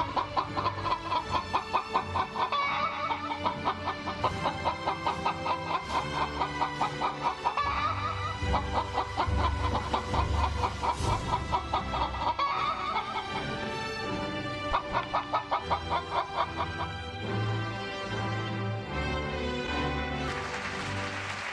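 Rapid chicken clucking runs through the whole twenty-odd seconds as many repeated pulsing clucks in a steady, bouncy rhythm, loud and without talk.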